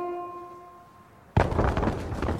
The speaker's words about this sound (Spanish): El gran edificio viejo explota.